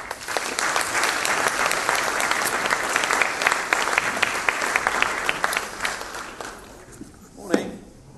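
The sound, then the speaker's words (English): An audience applauds to welcome a guest preacher at a morning church service: dense, steady clapping from many hands that holds for several seconds, then thins out and fades near the end. “So I'd like you to put your hands together and give him a warm welcome up here this morning.”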